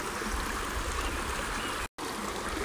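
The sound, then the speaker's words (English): A stream flowing over rocks gives a steady, full rushing and trickling of water that stays constant throughout, with one very brief break near the end. “Enjoy a deep sleep listening to the beautiful sounds of the stream.”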